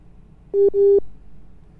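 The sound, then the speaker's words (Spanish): A telephone busy tone follows a dropped WhatsApp call: two short, low, steady beeps in quick succession stand out over faint background noise. “Ahí se nos perdió la llamada con Leonardo.”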